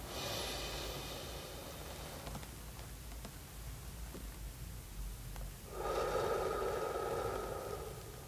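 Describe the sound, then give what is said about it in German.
Slow, deliberate human breathing: an airy inhale, a quiet held pause, then a long, breathy exhale. The sound is soft and steady, with no talking. “3 Sekunden einatmen, 3 Sekunden Luft anhalten, 3 Sekunden ausatmen. Also so.”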